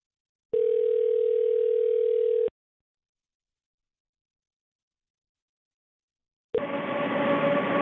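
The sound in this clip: A telephone tone from a call placed with the caller's number blocked: a single steady, mid-pitched tone held for about two seconds, then several seconds of silence before a louder, dense line sound starts abruptly.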